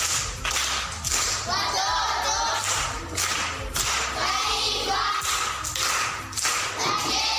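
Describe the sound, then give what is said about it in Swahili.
Clapping for a seventh-grade primary school pupil who answered correctly: many sharp claps that come in uneven surges, rising and dipping in loudness without stopping. “Amepata, amekosa? Amepata. Makofi kwa Dori.”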